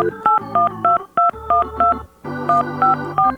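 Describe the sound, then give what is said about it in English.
Touch-tone telephone dialing: a rapid series of short, bright beeps in quick clusters, loud and clear, with brief gaps between groups of digits. “to make a little phone call. It's hard to dial and talk at the same time.”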